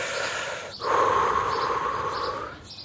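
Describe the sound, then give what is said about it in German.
A person takes a deep breath before standing on a bed of nails. One long, sustained breathy rush swells in and holds steadily for nearly two seconds, then eases off. “Also vertrete ich mir kurz ein bisschen die Füße. Ich atme nochmal durch, ich fokussiere mich”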